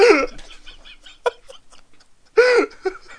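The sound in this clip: Hiccups come as a few short, squeaky voiced yelps with bending pitch, separated by softer clicks and small breathy noises.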